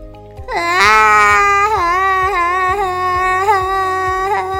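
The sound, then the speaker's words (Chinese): A child crying loudly with a long, wavering wail that dips and rises in pitch, over a steady, soft pulsing background beat. “啊！小天大哭了耶！大家从来就没有听过小天哭”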